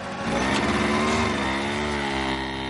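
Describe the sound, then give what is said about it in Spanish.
A motorcycle rides along a road, its engine giving a continuous buzzing drone with a steady, slightly wavering pitch throughout. “La moto avanza por la carretera.”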